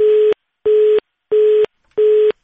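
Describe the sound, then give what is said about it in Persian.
Four evenly spaced beeps of a telephone tone after a call was cut off. Each is a steady, single-pitched note of about a third of a second, separated by short silences. “متاسفانه تماس تلفنی ما با سیامودین پسرلی سخنگوی اتاق تجارت و صنایع افغانستان قطع شد.”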